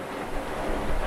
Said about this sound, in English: People hearing this may think that a 747 is flying overhead, but no, that is the sound of the machinery right here. Basically, the movement of water, pumping it through these big pipes, these massive pipes.